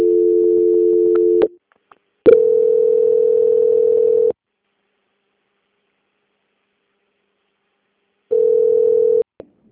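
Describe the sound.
A telephone line tone plays during a call transfer: a steady, mid-pitched electronic tone in three bursts separated by silences, the middle burst the longest and the last one short.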